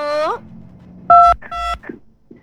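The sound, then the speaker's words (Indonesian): Telephone keypad tones sound as a call to a caller in Samarinda is connected: a brief voice, then two short dual-pitched beeps and a few faint blips. “kita terima yang bergabung di telepon di Samarinda.”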